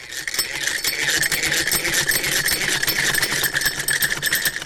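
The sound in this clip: A sewing machine runs at a tailoring course in Kabul, giving a loud, continuous, rapid mechanical clatter with a fast even rhythm and a bright metallic edge.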